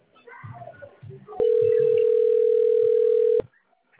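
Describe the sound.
A telephone ringing tone heard on the line as a call rings through: one steady, mid-pitched tone lasting about two seconds. People talk before it and faintly beneath it.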